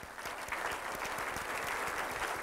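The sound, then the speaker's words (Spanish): Warm applause for the wives from a church audience: a thick, sustained rush of many clapping hands, even in level from start to finish. “Vamos a dar un aplauso a todas las esposas.”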